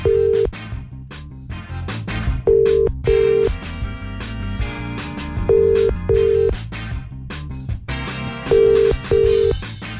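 An outgoing telephone call ringing out on a morning show: short, steady beeps of a ringback tone come in pairs, repeating every few seconds over loud background music.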